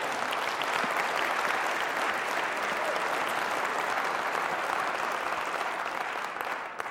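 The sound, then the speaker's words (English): Dense, steady cheering and clapping from a church audience celebrating the calling of a new pastor, holding at full strength for nearly seven seconds before easing slightly at the very end. “Can I get a yay?”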